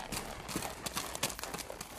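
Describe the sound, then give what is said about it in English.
Hooves of a horse galloping down a trail: a rapid, uneven run of thudding clip-clop beats, fairly faint and continuous across the whole clip. “placed a saddle on my horse, and started as fast as possible down the trail taken by Powell.”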